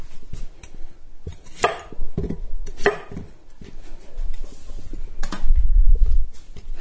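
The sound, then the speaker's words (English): Knife chopping the small ends off a cucumber on a cutting board, a few sharp, crisp strikes separated by quiet gaps, with a low soft rumble near the end. “All right, so I chopped the little ends off the cucumber.”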